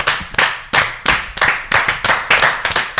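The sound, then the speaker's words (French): Group applause, people clapping together almost in unison, making a steady rhythmic run of many sharp, loud claps that fill the whole clip. “C'était un superbe applaudissement aussi. On l'a fait tous un peu en même temps”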